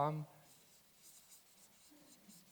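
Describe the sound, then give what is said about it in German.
Writing on a board gives faint, scratchy strokes in a loose rhythm, following a brief voice at the start. “Ja, ich schreibe es mal hier, Liebe.”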